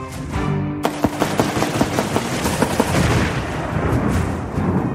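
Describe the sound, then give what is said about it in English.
An automatic weapon fires at a can of gasoline. A brief musical tone gives way to a rapid run of loud, sharp shots, followed by dense, continuous heavy noise. “The sound you hear at the end of that campaign ad, all that boom, boom, boom, boom, boom, boom, booming, is Greitens firing an automatic weapon at a can of gasoline.”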